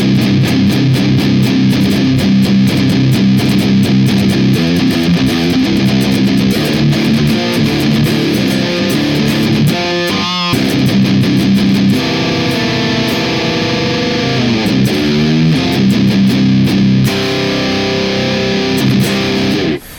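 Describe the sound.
An electric guitar plays through a pair of Boss pedals, a Waza FZ-1 fuzz and a DS-1 distortion with compression and EQ, into the green channel of a KT88 amp, giving thick, loud, saturated chords that sustain continuously throughout.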